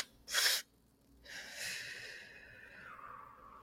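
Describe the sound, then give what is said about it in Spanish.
A person demonstrates a physiological sigh: a quick, sharp breath in, a second drawn breath, then a long, soft exhale that trails away, breathy and without talk. “forma de practicar la respiración fisiológica es haciendo dos inhaladas para poder captar la mayor cantidad de aire posible y luego exhalar todo lo que podamos hasta que sintamos como, bueno, ya no me queda más aire dentro, ¿no? Sería algo así como”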